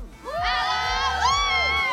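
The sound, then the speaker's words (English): A crowd by the main arena at a show cheers and whoops, with excited high-pitched voices rising in overlapping bursts throughout two loud seconds. “We're by the main arena. Crowd, say hello.”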